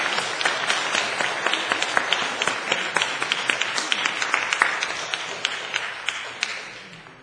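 Applause from an audience at a church service honoring the elderly: dense, steady clapping with crisp individual claps standing out, gradually thinning and fading toward the end.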